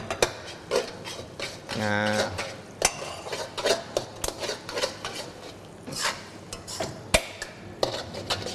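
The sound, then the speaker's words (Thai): A ladle adds a thickened sauce to stir-fried noodles in a pan, giving many irregular clinks, taps and scrapes of metal on metal with a brief louder stirring burst near the start. “ตัวน้ำซอสของเราก็ได้ที่แล้วนะครับความเหนียวตามที่เราต้องการเลยเราก็ใส่ลงไปนะ1ทัพพีก่อนนะครับเราก็ดูปริมาณ1เสิร์ฟนะครับเราก็หยอดลงไปได้เลย”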